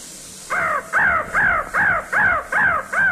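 A crow sound effect gives seven harsh, evenly spaced caws in a steady rhythm. Each caw is loud and nasal, with a slight downward bend, over a faint hiss.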